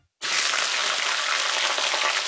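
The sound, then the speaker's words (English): New Zealand steak sizzling in a frying pan, a loud, even hiss that starts abruptly after a moment of silence and carries on steadily. “Mmm, that's delicious New Zealand steak sizzling in the pan.”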